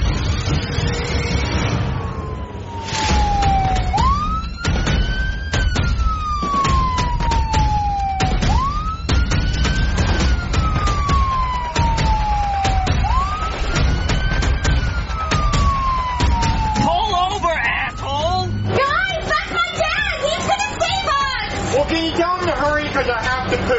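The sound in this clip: A police car siren wails during a car chase, its pitch sweeping up and gliding down in a steady repeating cycle over a loud, continuous roar of engine and road noise.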